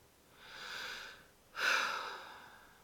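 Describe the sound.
A deep breath: a gradual, airy inhale swells and fades, then a stronger, abrupt exhale bursts out and trails away slowly.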